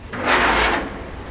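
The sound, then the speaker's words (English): A heavy steel door, like a submarine hatch, being opened: one broad, rushing scrape that swells and fades over about a second. “Visitors today can freely enter and leave via its two steel doors. So I think this first door I can handle.”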